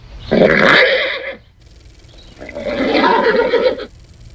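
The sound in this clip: A horse whinnies during an eye exam. Two long, loud, rough neighs are separated by a short pause, and the second call is slightly longer than the first.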